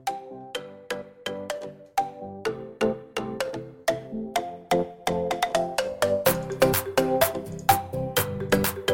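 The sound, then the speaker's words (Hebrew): A phone ringtone melody plays while a call is being dialed: many quick, bright electronic notes repeat in a steady rhythmic pattern, fairly loud and alone, with no talk. “אנחנו נחייג אליו עכשיו, ואני מקווה שהוא יענה לנו. בוא נראה. אתה מחייג אליו, אדיר גולדשטיין”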